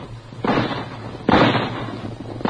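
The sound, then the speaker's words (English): Two rifle shots ring out, each a sharp, loud crack with a lingering decay, the second stronger than the first, over a low steady hum. “At the sound of the rifle shots, the frightened caribou raised their antlered heads and began to run.”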